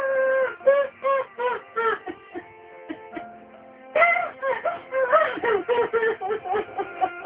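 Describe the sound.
A woman cries for her father in halting, wavering bursts of sobbing and wailing. Her voice breaks repeatedly, briefly softens mid-clip, then rises again into more intense crying.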